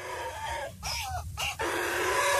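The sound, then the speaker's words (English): A squeezed rubber chicken toy, played for a pet donkey, gives a brief, wavering, honking squawk in two quick parts over a steady background noise. “Nelson and his rubber chicken. So, she squeezes the rubber chicken.”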